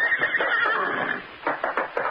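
A horse whinnies at a hideaway, a racehorse swapped out at the track: one long, shrill, harmonic neigh that holds for about a second, then several shorter, rougher bursts of whinnying, loud and alone with no talk.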